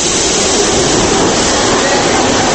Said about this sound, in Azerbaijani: Təkəmseyrək sərnişin olsa da qatar platformada çox dayanmır. Təxminən 2 dəqiqə sonra yerindən tərpənir.